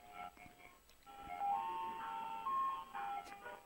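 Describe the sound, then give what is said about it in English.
An ice cream truck passes outside an apartment, its faint, tinkling jingle playing a few sustained melodic notes. “Oh my God. It's parked right outside our apartment. It's coming by. Okay, it's going away. It's driving out. It's leaving. Can you believe that? We never, ever, ever have an ice cream truck.”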